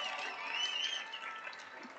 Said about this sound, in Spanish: Todo el cuerpo técnico responsable de material. ¡Aplauso para ellos!